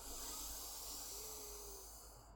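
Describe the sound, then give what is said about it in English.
A deep inhale through both nostrils during alternate nostril breathing practice, a faint, steady, airy hiss lasting about two seconds and thinning at the end. “take a nice deep inhale in through both nostrils, filling the belly”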